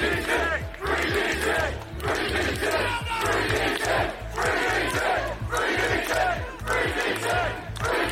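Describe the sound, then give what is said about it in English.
Demonstrators outside a police centre in Basingstoke, protesting an activist's arrest, chant loudly in a steady, repeating rhythm. The shouted chant rises and falls in regular waves. “That was the sound of demonstrators outside the police centre protesting the arrest of Daniel Thomas,”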